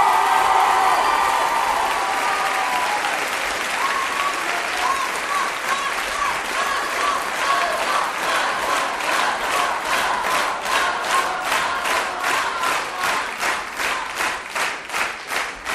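Applause and cheering from an audience at a music school show. It opens as a dense roar with shouts, then settles into many loud, steady claps in unison that grow more rhythmic toward the end.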